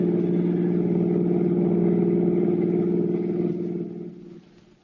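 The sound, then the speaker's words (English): A steady, low engine drone from a car driving toward a toll bridge across a river. The drone holds level for several seconds, then fades away over the final second. “The two criminals and their victim, Mr. Julius Siegel, drove toward the George Washington toll bridge, across the Hudson River in Siegel's car”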